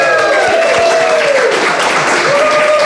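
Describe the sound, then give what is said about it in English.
A live audience at the Ballykilcavan Brewery in Laois, Ireland, applauds in a loud, continuous wash of clapping that holds steady for the whole stretch. “We have a live audience. You're all very welcome, everyone. Let's hear you.”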